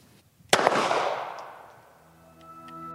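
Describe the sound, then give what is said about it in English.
A pistol is fired after the magazine is loaded and the slide racked: one sharp, loud crack, followed by a long decaying tail that fades over about two seconds. “First, you would load your ammunition. You would insert the magazine. You would direct the slide. And fire the weapon.”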